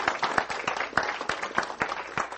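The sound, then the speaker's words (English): Audience applause welcoming a guest: steady, moderately faint clapping from a group, with individual claps distinct within the crisp patter. “We can welcome him with a good round of applause.”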